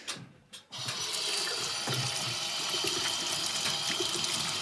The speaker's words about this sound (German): Und dann wollen wir Hände waschen wahrscheinlich, gell?